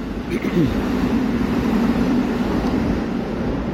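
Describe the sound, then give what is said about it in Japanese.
A Keisei electric train runs past with a steady, broad rumble and a sustained low tone that holds at an even loudness from start to finish. “今ちょうど京成 電鉄が、電車が今走っています、走り抜けています。”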